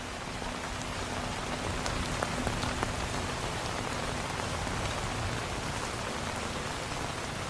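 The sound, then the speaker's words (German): Steady rain falls on a surface, a dense, even hiss of drops that holds at a constant level throughout with no voices. “Der Regen verbindet sie. Er bringt Tieferes nach oben.”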